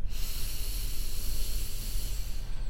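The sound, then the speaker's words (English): A slow, deep breath drawn in during a breathing exercise, a steady, airy rush that holds at an even level for almost three seconds with no voices. “And exhaling for a count of 4. Again, inhaling.”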